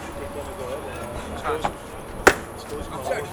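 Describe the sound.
An axe is thrown at a target and lands with a single sharp, thudding impact midway through, set low beneath steady background chatter of voices.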